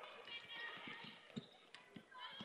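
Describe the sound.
A basketball dribbled by a player in a women's game: several soft, low bounces at an irregular pace, heard under continuous talking.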